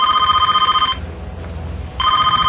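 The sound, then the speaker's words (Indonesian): A reception desk telephone rings in two loud bursts of bright, warbling electronic tones, separated by a quieter gap of about a second, with the second burst cut off at the end. “tiba-tiba telepon resepsionis berbunyi.”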